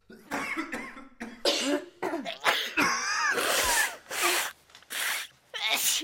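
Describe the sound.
Harsh, loud coughing during the winter cold season: a rapid run of many hacking bursts with brief breathy pauses between them, with no other sound.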